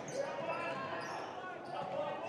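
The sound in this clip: A basketball is dribbled on the court during a boys' high school game between Exeter and Conrad Weiser, with repeated bounces. The bouncing is fairly faint and sits under a man talking.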